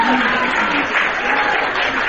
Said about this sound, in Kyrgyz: Чыгарма аткарылып бүтөөрү менен залда отурган окуучулар шатырата кол чаап Сабинаны кубатташты.